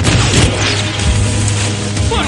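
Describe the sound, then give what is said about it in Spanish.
Cannon fire from a frigate's stern deck during a naval battle, aimed at an enemy ship: loud, dense booming blasts over a continuous heavy rumble throughout. “Los botes remolcan la fragata. Desde el puente de popa disparan contra la Acheron. ¡Fuego!”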